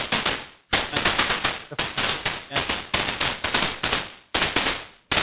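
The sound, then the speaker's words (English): Fireworks going off in dense, loud crackling volleys of sharp bangs, nearly continuous, with a few brief pauses between bursts. “I can't work through the fireworks, I really can't”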